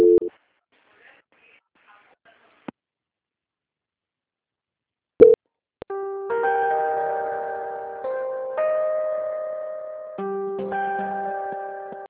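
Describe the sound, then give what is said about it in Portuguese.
Telephone tones during a call transfer: a few sharp clicks on a quiet line, then sustained electronic tones that step between pitches in repeating blocks, steady and fairly loud with no talk. “Agora peço que a senhora guarde em linha, não desligue. Vou transferir sua ligação para o controle de qualidade, que terá continuidade da sua contratação, ok? Momento, por gentileza. A transferência.”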